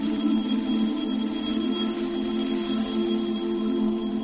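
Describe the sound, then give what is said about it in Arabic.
An alarm clock held in someone's hand rings on without a break, a steady, harsh, buzzing ring at a fairly even level throughout. “وشخص نازل من على سلم القبر بهدوء، ماسك في ايده المنبه.”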